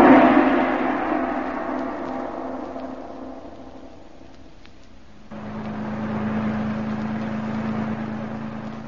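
Low engine hum of a car driving upstate, a soft rumble that fades gradually, then swells abruptly after about five seconds into a steadier, firmer drone.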